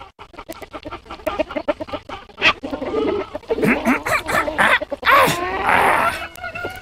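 A village rooster crows among bursts of clucking and squawking from other fowl, loud and busy with no talk.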